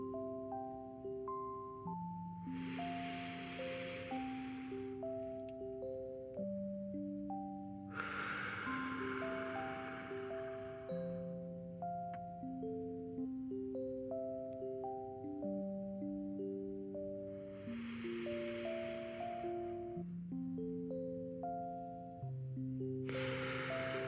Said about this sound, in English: So let's close our eyes and take three deep breaths.